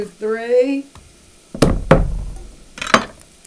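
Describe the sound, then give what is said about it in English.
A knife minces a garlic clove on a cutting board after a moment of speech, landing three sharp, loud knocks with short gaps between them. “And then I'm going to mince up this garlic clove,”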